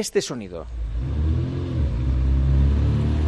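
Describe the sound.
A small 600 car engine rumbles while parking, a low, steady drone that holds for several seconds after a brief burst of voice at the start.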